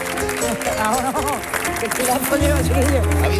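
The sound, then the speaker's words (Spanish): An audience breaks into applause and crowd noise, a dense clatter of clapping running throughout beneath a speaking voice. “Fuerte el aplauso para Mar Lender, por favor.”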